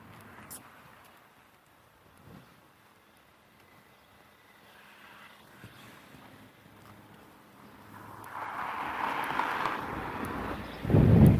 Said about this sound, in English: There's the wind.